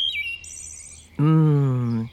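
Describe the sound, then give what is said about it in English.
A wood thrush calls with brief, high, fluty notes, then a much louder, lower, buzzy sustained tone with rich harmonics holds for about a second and slowly sinks in pitch. “Do you hear that bird call? That's a wood thrush.”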